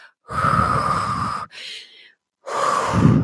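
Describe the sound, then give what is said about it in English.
Heavy breathing while catching breath after a cardio workout: three loud, breathy gasps, the first long, the second short and quieter, the third strong again, with brief silences between them. “It's okay to need to stop. It's okay. Catch your breath. Breathe for me.”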